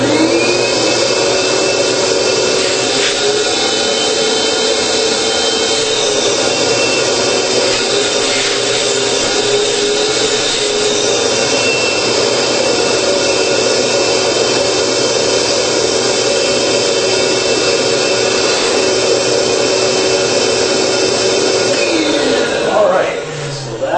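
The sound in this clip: A big-motor air-moving unit with a hose attached runs with a loud, steady roar and whine that holds for the whole clip, its pitch dropping right at the end.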